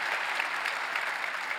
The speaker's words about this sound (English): Let's put our hands together and welcome everybody that's joining in with us.